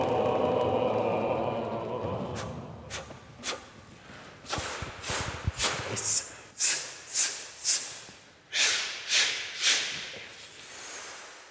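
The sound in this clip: Brisk hand taps on the body during a singing warm-up, mixed with breathy, yawning exhalations. A hushed breathy stretch leads into many sharp, bright slaps in a fairly steady beat that grow stronger toward the end.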